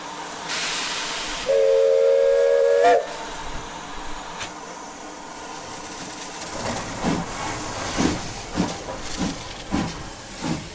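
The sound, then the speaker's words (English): A steam locomotive whistle, on an American-built Army shunting engine, sounds one steady, clear blast of about a second and a half. After a pause, a run of regular exhaust chuffs and hissing steam follows. “It's one of the guest locomotives this weekend, named after Major General Frank S. Ross”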